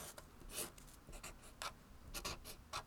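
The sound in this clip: Drawing shapes on paper: many short scratchy strokes of a writing tool, some quick and close together, others longer, in an irregular rhythm with no talk.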